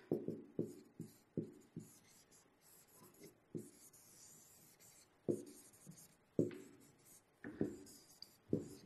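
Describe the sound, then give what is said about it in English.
A pen draws on paper in a series of scratchy strokes, some short and sharp, others longer and softer, with brief quiet gaps between them. The scratching is faint and has no talk over it. “Now, where'd that pen go? Fantastic. All right, so let's begin with this. I'm going to draw.”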